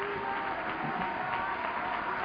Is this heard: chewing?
no